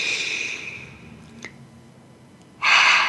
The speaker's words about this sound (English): Open up your hands. You can lay them on your knees. And take a deep breath.